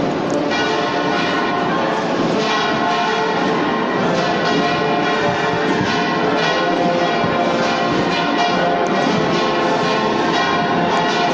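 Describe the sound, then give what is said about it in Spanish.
Church bells in Jaén ring at a quarter to eleven on Easter Sunday, calling people to the eleven o'clock Mass. A dense, continuous wash of ringing tones holds steady throughout, with faint repeated strikes running through it. “Y se nos cuelan también ahora pues esas campanas que marcan que son las 11 menos cuarto y que van llevando a misa de 11.”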